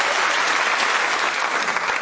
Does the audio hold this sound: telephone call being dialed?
no